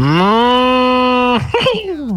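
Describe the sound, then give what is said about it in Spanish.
A cow moos once in a long, steady, low call that holds for over a second, then breaks into a short, rougher trailing sound. “La vaca, la vaquita de Nutri.”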